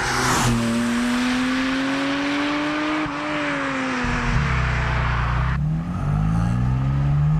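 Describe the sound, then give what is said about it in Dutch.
A sports car's engine pulls away calmly on a public road, a car better suited to a circuit. A loud, steady drone climbs slowly in pitch, then drops into a lower rumble, with no talk. “we rijden rustig weg. Ik kan ook rustig maar rijden.”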